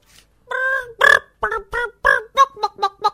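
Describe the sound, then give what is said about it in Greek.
Hens clucking in a rapid run of many short, throaty clucks, rising into a quick, busy chatter toward the end. “Τρέχοντας ο Νίλς έπεσε πάνω στις κότες. «Κότες, μήπως είδατε το ξωτικό?»”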